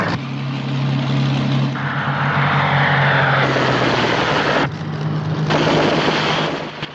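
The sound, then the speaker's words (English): A Mosquito aircraft coming in to land on an airfield, its engines giving a loud, steady droning roar with a deep tonal hum under broad noise. The drone briefly dips once before continuing. “A Mosquito comes in to land.”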